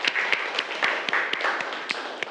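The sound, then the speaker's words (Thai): Students clap for a classmate in a classroom: many quick, overlapping claps at a fairly low level, with a few sharper slaps standing out from the steady patter. “นักเรียนปรบมือให้กับเพื่อนด้วยครับ”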